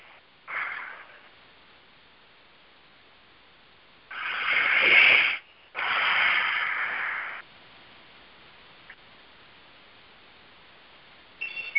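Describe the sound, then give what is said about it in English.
Deep breaths taken slowly: one short airy breath, then after a pause two long, louder hissing breaths back to back, with no talk. “So let's all just stop and take a breath. A few breaths, actually.”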